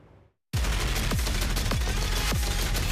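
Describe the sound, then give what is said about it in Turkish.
A modern machine gun fires in an air test from a helicopter: after a brief quiet moment a loud, dense roar of rapid fire begins suddenly and continues without a break, with a few heavier thumps standing out. “Makine ve kimya endüstrisi tarafından üretilen modern makinalı tüfek. Yani bu kez havada test edildi bakın.”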